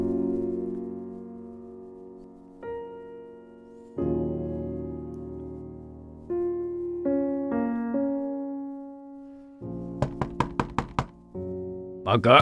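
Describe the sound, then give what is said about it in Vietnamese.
Loud banging on a door from outside a gate early in the morning: a quick burst of several sharp knocks rises over a musical background. “Mới sáng sớm đã có tiếng ai gọi ôm sầm từ ngoài cổng, cộng thêm tiếng đập cửa đinh tai.”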